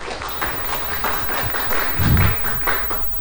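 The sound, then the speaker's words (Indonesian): Audience applause at an Indonesian panel discussion on young people preserving music, language and tradition: dense, irregular clapping from many hands that swells slightly toward the middle. “boleh diberikan tepuk tangan sekali lagi”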